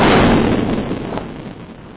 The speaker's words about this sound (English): Those records include sounds made by the earthquake. In the following recording, we first hear the earthquake's main shock.